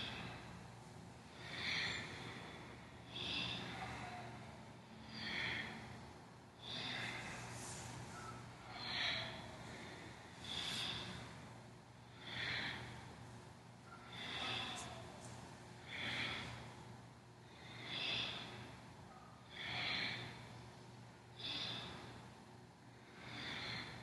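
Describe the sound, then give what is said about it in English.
Forceful yoga breathing through the nose, inhaling through the left nostril and exhaling through the right, repeats as many steady, evenly spaced breath bursts with a breathy hiss, heard alone over a low steady hum. “Use a powerful breath. Inhaling left, exhaling right.”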